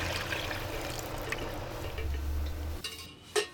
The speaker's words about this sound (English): Now I'm going to hit it with the stock there.